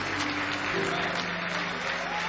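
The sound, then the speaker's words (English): A church audience claps its hands in praise, a dense, steady wash of many hands clapping at an even loudness throughout. “Give the Lord another big hand clap of praise.”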